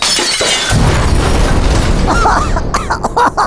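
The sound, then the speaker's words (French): Glass jars stacked into an obelisk with candles topple and burst, then glass shatters. A sudden loud crash erupts, followed by continuous breaking and clattering debris, ending in scattered sharp clinks. “Pourquoi ça a explosé? Damned, c'est du méthane.”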